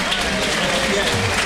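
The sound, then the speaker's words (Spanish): A bullring crowd rises to its feet and applauds a bullfighter after a daring close pass with the bull, a dense, continuous burst of clapping that fills the whole short moment. “Bueno, mira, la gente se ha puesto en pie. La gente se pone en pie para aplaudir a David de Miranda, que se ha pegado el súper arrimón.”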